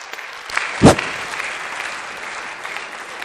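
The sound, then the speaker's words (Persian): Audience applause at a coaching workshop: dense, steady clapping throughout, with one louder, sharp burst near the start standing out from the even patter. “مرسی تشویقش کنیم.”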